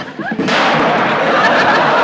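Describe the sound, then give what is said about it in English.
A toaster ejects rye bread with a sudden loud crack like a gunshot, followed by a continuing noisy rush. “I heard a shot. Shot? It's that toaster. I put a piece of rye bread in. Came out like a missile.”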